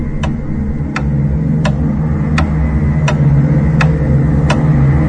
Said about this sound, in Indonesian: Perlahan ku dengar detik jam yang mulai melambat.